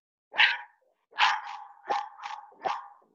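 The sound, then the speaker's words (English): A dog barks six times in sharp, mid-pitched barks with no voices. One bark stands alone, then five follow in a quicker, uneven run. “Is that another dog?”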